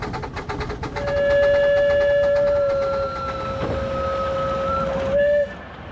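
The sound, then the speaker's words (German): Garden park railway locomotives from Fellbach-Schmieden: quick rhythmic chuffing, then a loud, steady locomotive whistle held for about four seconds, shifting briefly to a new pitch before cutting off. “Auch die Parkbahner aus Fellbach-Schmieden sind mit ihren beiden Lokomotiven noch im Einsatz.”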